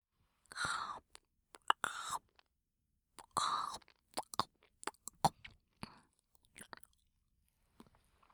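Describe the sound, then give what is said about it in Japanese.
Gummy candy is chewed softly and close up in quick, sticky, squishy bites. The chewing comes in irregular clusters, mixed with a few breathy, whisper-like mouth sounds, and stays faint throughout. “そしてこの噛み心地、グミキャンディを食べるたびに、アウトローな気持ちになっちゃいそうだわ。”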